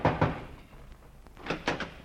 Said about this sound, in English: Well, man, do you have to tear my door down?